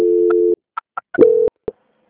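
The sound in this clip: Telephone call transfer tones as a call is passed on: a steady low tone, a few short beeps, another sustained tone and one final blip, loud and alone.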